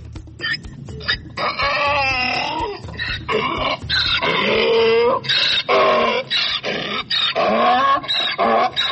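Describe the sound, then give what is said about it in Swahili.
A donkey brays loudly, with repeated rasping see-saw calls that alternate between inhaled and exhaled tones, broken by short gaps, over several seconds. “Sasa punda, huu ni punda kabisa.”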